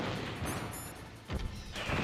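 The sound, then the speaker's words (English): A boss in the video game Metal Gear Solid: Integral fires missiles repeatedly. Booming bursts and whooshing blasts rise out of a steady, noisy game background, with one sharp impact near the middle. “Okay, that was weird. He, like, shot missiles, like, 3 times in a row.”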